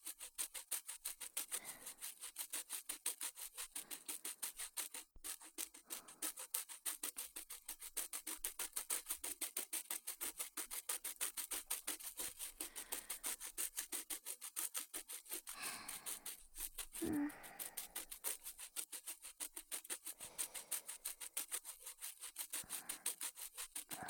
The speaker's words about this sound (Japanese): 誰かの歯を磨いてやるのも楽しいものだな。